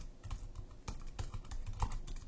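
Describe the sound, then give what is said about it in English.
Typing on a computer keyboard gives a rapid, uneven patter of many crisp keystroke clicks that runs continuously and stands alone without talk. “there's great typing skills”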